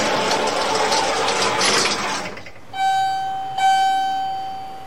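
Elevator arriving, the recurring opening effect: a loud rushing rumble of motion runs for a few seconds, then a bright ringing chime sounds and rings out, followed by a second chime that fades slowly.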